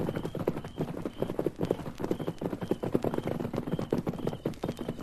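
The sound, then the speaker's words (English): Hoofbeats of a horse approaching fast with a rider: a rapid, steady clip-clop of many hoof strikes in an even galloping rhythm, fairly loud and alone throughout. “Wait a minute. Someone riding this way.”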